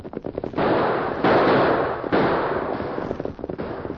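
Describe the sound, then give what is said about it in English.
Outlaws fire guns on a trail: sharp, loud shots crack in rapid clusters near the start and end, around a dense, steady rush of noise in the middle. “That shooting seems to be on the trail ahead of us.”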